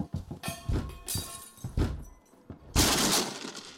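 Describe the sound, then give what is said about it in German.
A door being broken open by force: several heavy thuds and cracking blows in irregular succession, ending in a louder, longer breaking crash. “Sofort aufmachen oder wir brechen die Tür auf.”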